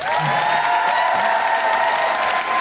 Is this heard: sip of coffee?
no

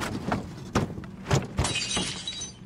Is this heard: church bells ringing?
no

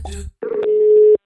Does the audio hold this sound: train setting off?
no

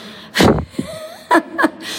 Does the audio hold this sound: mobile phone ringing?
no

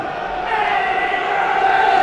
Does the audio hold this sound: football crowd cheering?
yes

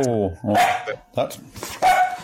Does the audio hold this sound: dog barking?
yes

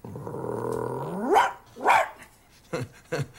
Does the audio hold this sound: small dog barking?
yes

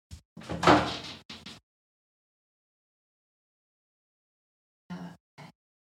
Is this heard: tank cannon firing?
no

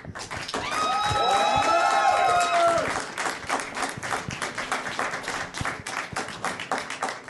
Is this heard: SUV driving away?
no

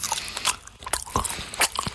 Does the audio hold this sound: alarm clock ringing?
no

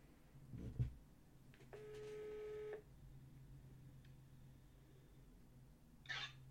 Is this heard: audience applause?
no

